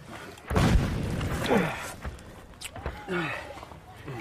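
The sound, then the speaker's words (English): A big trench mortar shell explodes near a shallow mountain dugout with a sudden low, rumbling boom, followed by scattered thuds and rustling, with voices afterward. “This isn't a deep dugout. That was a big trench mortar.”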